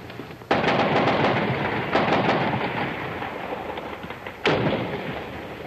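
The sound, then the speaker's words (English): Army troops fire guns on a peaceful rally in the Plaza of Three Cultures: three heavy booming bursts with long rumbling decays, linked by rough, continuous crackling shots. “The army is here and they're firing. They're letting go with just about everything they have.”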